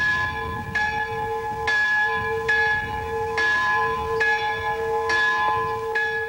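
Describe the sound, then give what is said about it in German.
Church bells ring out across Hungary on 16 June 1989 in remembrance of the 1956 revolution's victims, a slow, regular series of clear strikes, each leaving long, sustained ringing overtones. “Im ganzen Land werden die Kirchenglocken geläutet.”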